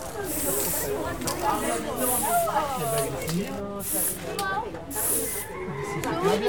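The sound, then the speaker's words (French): Green spray paint can spraying in repeated short hissing bursts, with people talking over and between the sprays. “cherche la bombe verte. Là, ça fait trop fort, c'est trop fait.”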